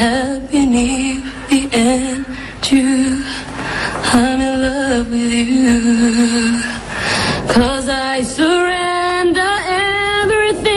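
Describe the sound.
A young woman sings a ballad at her televised audition for the Nouvelle Star singing contest in 2004. Her sustained, clear voice carries over loud backing music throughout.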